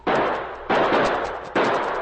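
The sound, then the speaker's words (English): Gunfire as a sergeant returns fire in a drama: three loud, evenly spaced shots, each a sharp blast with a long rough decay, and no voices. “The shots were coming from behind the huge trunk of a fallen tree, well screened by bushes and shrubbery. The sergeant returned the fire.”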